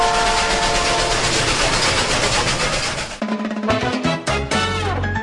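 A train sound effect for a news program: a loud, rushing rumble of rolling wheels for about three seconds, followed by several short horn-like tonal blasts at differing pitches.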